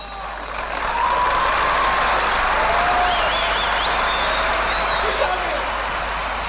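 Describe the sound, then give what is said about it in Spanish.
A carnival crowd applauding from the stands: dense, steady clapping swells within the first second, then holds loud and even to the end, like a wash of rain. “mirá la gente que hay hoy, la gente lo aplaude”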